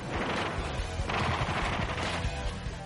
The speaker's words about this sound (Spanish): Pero para entonces los alemanes ya les estaban disparando.